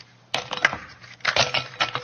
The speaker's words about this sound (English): dump the ice cubes in here